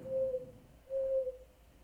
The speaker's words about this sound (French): Le dernier ululement du vieux hibou